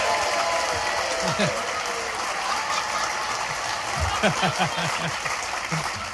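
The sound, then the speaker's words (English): Thick, sustained audience applause greets comedian Ross Noble at a live comedy show, a steady dense clatter of many hands throughout, with a man's voice talking over it. “Look at her hogging my applause.”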